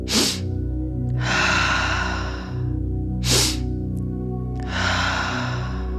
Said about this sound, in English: a nice forceful short inhale through the nose, a long drawn out exhale out the mouth.